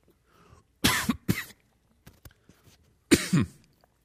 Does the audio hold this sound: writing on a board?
no